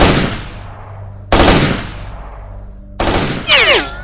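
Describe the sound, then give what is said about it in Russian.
An automatic rifle fires loud bursts in a shootout. Three sharp volleys arrive about a second or two apart, each trailing off, and a further crack lands right after the last. “схватил автомат и ответил пару очередей, не глядя, просто в сторону костра.”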